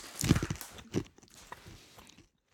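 Crisp crunching as a crunchy peanut mix from a discounter is chewed, the peanuts coated in a crunchy batter. A few irregular, faint bites crackle, strongest early on, then soften and stop shortly before the end.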